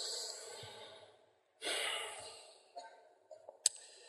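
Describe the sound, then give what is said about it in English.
An audience taking a big breath together: a long, broad, breathy whoosh of many people inhaling, then a second swell as the air is let out, followed by faint shuffling and a few small sounds. “Let's actually all take a big breath so we all hear this.”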